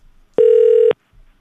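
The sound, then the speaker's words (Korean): A single telephone keypad beep: one loud, steady electronic tone that lasts about half a second and stops cleanly, with faint low noise before and after. “전화를 드려보도록 하겠습니다. 띠또띠 또또 띠또 띠띠띠띠 들어갑니다.”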